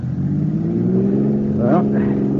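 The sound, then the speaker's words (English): A car engine revs as the driver hits the gas, a steady, fairly loud low drone whose tones climb briefly near the end. “Go on, give it the gas.”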